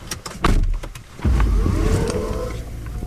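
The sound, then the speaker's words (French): A hydrogen fuel cell electric car setting off with no engine noise, just a few clicks at the start and then a steady low rumble as it rolls. “Donc effectivement, là où on a commencé à rouler, il n'y a vraiment aucun bruit du tout.”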